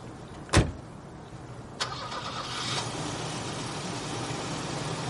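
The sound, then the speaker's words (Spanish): A car engine turns over and starts after a sharp thud and a second, smaller knock, then settles into a steady, low running hum with no voices present. “A través de la ventana de la misma espera que el vehículo se vaya.”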